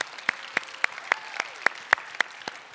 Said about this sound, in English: So if you are here in person, would you put your hands together?